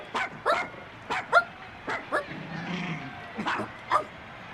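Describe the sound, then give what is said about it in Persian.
A dog barks in many short, sharp bursts mixed with high yips and a brief whimper, with the barks coming in uneven pairs at a moderate volume. “چرا داری واق واق میکنی؟”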